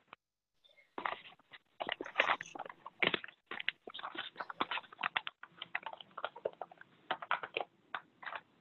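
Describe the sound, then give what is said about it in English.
A paper sheet is folded and firmly creased along its edge, giving many quick, faint crackles and taps in irregular bursts, with no talking. “I like to pick it up and make that fold very definite to fold my piece into, my edge into.”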